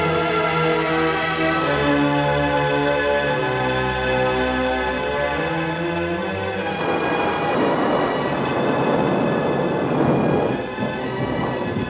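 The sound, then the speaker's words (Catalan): Thunderstorm at night: a sustained tonal drone gives way in the second half to a broad, loud, rushing rumble of thunder and rain, with no voices. “Nit de tempesta.”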